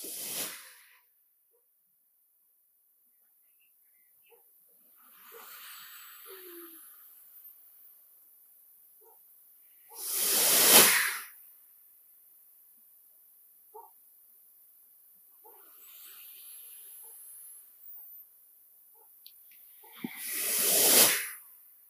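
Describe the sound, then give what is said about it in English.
Slow breathing during a guided breathing exercise: four hissing breaths that alternate between softer, longer airflow and louder, sharper rushes of air, separated by near silence. “As you breathe in, you close them. And then as you breathe out, you open them.”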